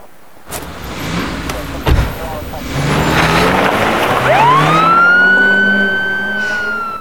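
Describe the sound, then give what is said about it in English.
Police car siren winding up as the car drives off: a rising wail that climbs in pitch, then holds a steady high tone over engine and road rumble, loud and continuous to the end. “Then the police car moves off.”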